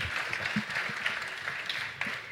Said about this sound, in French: Et on peut les applaudir pour les encourager quand même, s'il vous plaît voilà.